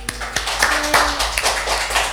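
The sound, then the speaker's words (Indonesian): Audience applause for two guests on a TV show: a short burst of crisp claps with distinct, scattered hand strikes rather than a dense roar. “Beri aplaus yang meriah dong buat mereka berdua ini.”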